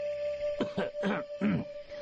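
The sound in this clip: An old man clears his throat in three rough, gravelly bursts before speaking at a hushed funeral ceremony, with a faint steady hum underneath.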